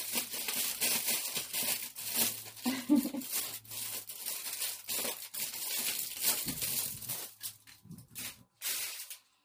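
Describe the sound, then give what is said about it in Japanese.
Aluminum foil being crumpled into a ball, a dense, continuous crackling and crinkling that lasts several seconds and thins out into a few sharper crinkles at the end. “ちっちゃいから、たくさんちょっと贅沢にアルミホイルを使わせてもらいます。”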